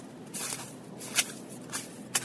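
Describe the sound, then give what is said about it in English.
Footsteps in sneakers on a snowy, slushy running track: a few faint, soft squelching steps stand out over a steady background hiss. “This track is really snowy and slushy. I don't know if you can hear it.”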